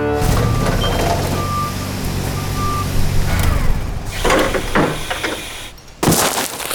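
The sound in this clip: Forklift reversing beeps in a yard: a few steady high tones repeating over a rumbling engine, followed later by clattering knocks and thuds.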